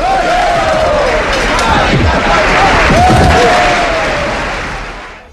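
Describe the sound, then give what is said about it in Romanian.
A crowd at a horse race sings an improvised song to cheer on its favourite rider, a dense mass of voices with wavering sung pitches, loud and swelling through the middle before fading toward the end. “După cum auziți și dumneavoastră, dragi ascultători, publicul, cuprins de un entuziasm fără margini, își susține favoritul improvizându-i un cântec.”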